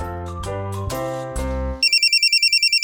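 A telephone rings with a rapid, bright electronic trill of many short repeated pulses, starting right after a few notes of music.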